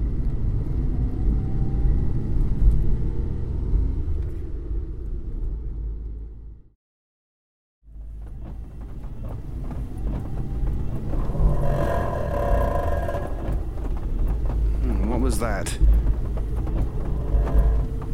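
Old car engine struggling and close to breaking down, a low, rough rumbling drone that cuts out to silence for about a second partway through, then resumes just as heavily, with no talk.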